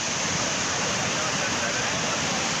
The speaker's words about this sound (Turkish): Keles ilçesinde sağanak sele dönüştü. Önüne ne geldiyse sürükledi, bazı evleri su bastı.